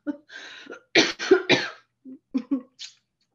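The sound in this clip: Coughing fit after something went down the wrong pipe: three loud, harsh coughs in rapid succession, then a few shorter, fainter coughs and throat sounds, with no speech.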